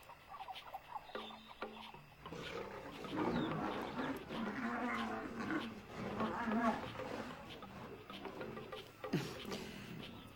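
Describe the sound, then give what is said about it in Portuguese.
Tigers fighting over territory, a continuous rough mix of snarling, growling and roaring with scuffling noise, rising and falling in intensity throughout. “A vida selvagem também tem seus contratempos. Podemos ver os tigres brigando para ver quem é o dono do território.”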